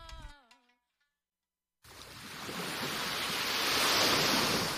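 Ocean waves breaking on a shore, heard as a broad rushing surf that swells steadily louder over about three seconds, following a brief pitched sound and a moment of silence.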